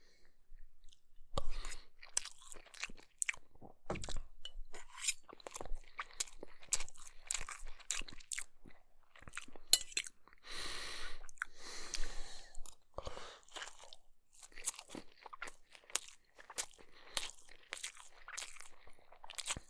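A person chewing and eating crunchy food, with many irregular, crisp crunches and wet mouth sounds spread across the whole stretch, fairly quiet and with no talking.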